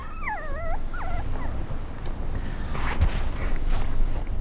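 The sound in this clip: A dog whimpers in two short, high, wavering whines near the start, followed by quieter shuffling and low rustling noise.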